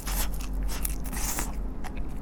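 Crunchy biting and chewing of deep-fried pufferfish, a dense, continuous crackle of crisp coating being eaten, fairly loud and steady throughout with no talking.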